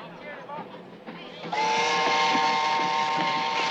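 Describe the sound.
A train whistle sounds as the train approaches a station: after a stretch of quieter rumbling, one long, steady, shrill blast begins and holds loudly to the end.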